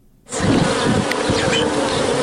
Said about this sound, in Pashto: د شاتو دا مچی په صندوقونو کې ژوند کوي